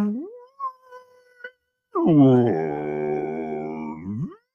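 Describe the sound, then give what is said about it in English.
A human voice imitates an Eastern Australian humpback whale call. It starts with a short rising moan and brief broken tones, then a longer, louder, steady droning cry that sweeps upward at its close. “So if I have the Eastern Australian humpback call and it's like,”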